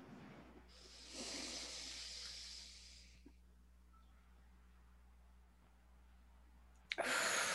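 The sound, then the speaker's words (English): Deep breathing during a guided breathing exercise: one long, airy, hissing breath lasting about two seconds, then a quiet pause over a low steady hum, and another breath beginning at the very end. “Okay, so let's breathe.”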